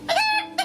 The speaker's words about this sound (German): Der. Hier. Das ist ein russischer Hahn.